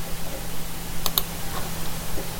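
Two quick key presses on a computer keyboard, crisp, light clicks in fast succession over a faint steady hiss, with no talk.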